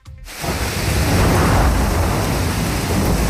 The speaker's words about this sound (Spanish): Este es el sonido de la lluvia y el granizo a esta hora, tanto en la capital como en otros muchos puntos de la región.